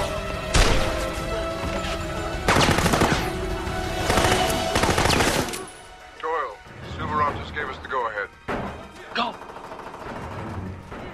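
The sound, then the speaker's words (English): Loud, dense gunfire comes in a few sustained bursts of rapid shots as armed men burst in and a return volley answers. Voices speak once the shooting fades. “As the official dials out for Jack, armed men burst in. The official is shot. Jack pulls the woman to cover and returns fire.”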